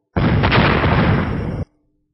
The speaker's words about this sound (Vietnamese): Một trận nổ liên miên truyền tới